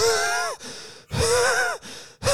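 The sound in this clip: A voice imitates the strained, raspy gasping breaths of someone punched in the throat: a few loud, voiced wheezing gulps in quick succession, separated by brief pauses.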